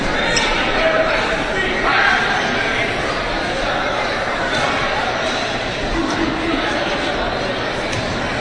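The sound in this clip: A basketball is dribbled a few times before a free throw in a game, low bouncing thuds under steady crowd noise and chatter.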